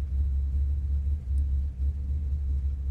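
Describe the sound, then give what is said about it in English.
Car engine rumble in an old movie scene: a deep, steady low rumble with no music, swelling and dipping slightly, with a brief drop in level partway through. “See how you can kind of hear the car? Yeah. No music? Right.”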